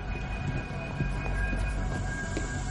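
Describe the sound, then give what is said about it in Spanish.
Metro train rumble inside a carriage, a low steady roar with a thin sustained electrical whine and occasional soft knocks from the wheels. “El metro para.”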